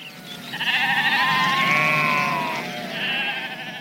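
Sheep bleating: a long, quavering bleat of about two seconds, then a shorter second bleat, both loud and clear with nothing else over them.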